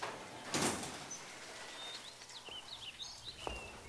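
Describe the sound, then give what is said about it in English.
A sliding door opens with a brief, loud whooshing burst near the start. The hiss then fades, and faint high chirping tones follow over a low background. “Door open.”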